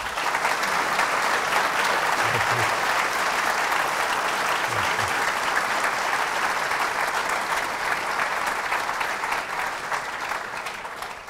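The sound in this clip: An audience applauds to welcome a speaker to the stage: sustained, dense clapping that stays loud and even for the whole stretch, with no voices rising above it.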